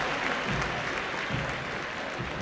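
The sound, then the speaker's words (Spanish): Applause from a stadium crowd at a football match, with dense, steady clapping and crowd noise at an even, fairly loud level throughout. “Paró en el medio del campo, Juli, saludando a la gente y, por supuesto, también agradeciendo el aplauso que cada vez fue incrementándose.”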